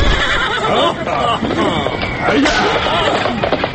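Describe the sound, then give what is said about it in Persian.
A horse neighs loudly as riders mount, with hooves clip-clopping and people talking throughout. “آرتا و امیر کبیر سوار اسب شدند و به سمت حمام فیل رفتند.”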